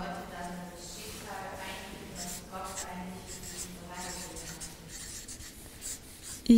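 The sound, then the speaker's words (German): Pen scratching steadily across paper as someone writes, a continuous soft rubbing texture that runs through the whole stretch, with a voice briefly heard. “Ich schreibe mal einen neuen Abschnitt mit Gott, oder?”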